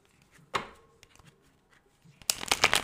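Cards are shuffled for a card reading: one quick burst of card noise, a few light taps, then a dense, rapid flurry of riffling cards at the end.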